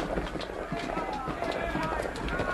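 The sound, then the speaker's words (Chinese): Many animals, large and small, walk toward Noah's ark: a dense, steady trample of footsteps and hoof clip-clops with no clear individual beats, with voices mixed in. “我看得见了，是动物啊，从四面八方向方舟走来的，大的、小的、温顺的、凶暴的”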